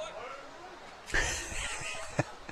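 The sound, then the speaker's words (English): Baseball fans in a stadium moan and groan after a missed pitch. The crowd noise swells suddenly partway through and holds as a broad, sustained murmur, with a brief sharper burst near the end. “Fans moaning and groaning.”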